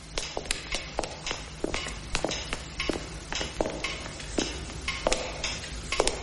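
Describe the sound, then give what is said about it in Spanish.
Footsteps of a man and a maid entering a family house and walking toward the living room: many steady, crisp steps at an even walking pace, with no talk. “Julián entra en la casa familiar acompañado de la sirvienta. Camina hacia el salón en el que está su hermana.”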